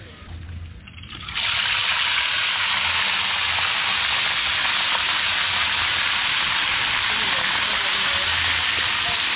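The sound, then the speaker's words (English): A wood fire fed with cocoa shells and fanned to keep oil burning: after a quieter first second, a loud, steady roaring hiss of flames sets in and holds evenly to the end. “So she'll continue to fan the flames to keep the oil burning.”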